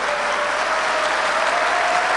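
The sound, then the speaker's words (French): Audience applause fills the whole stretch: dense, continuous clapping from a crowd, steady in level from start to end with no breaks. “Alors, applaudissez à la Côte d'Ivoire.”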